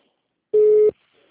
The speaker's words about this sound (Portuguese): eu tô tentando ligar lá na agência para eles falar com a gerente da Luciana